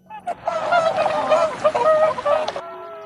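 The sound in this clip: Wild geese call in a dense, overlapping flurry of loud honking cries over a steady noisy background, and the calls stop abruptly near the end.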